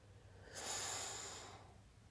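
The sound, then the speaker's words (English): A single slow, deep breath in, taken during a guided relaxation exercise. It is a soft, airy rush lasting about a second that swells and then fades, quiet against a faint background. “And we're going to take a deep breath in.”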